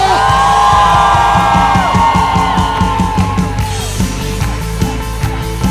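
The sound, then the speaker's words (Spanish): A worshipping crowd at a praise service lets out a loud, joyful shout, with sustained cheering and whoops carrying over a steady rhythmic beat throughout. “Y por eso te damos un fuerte grito de júbilo.”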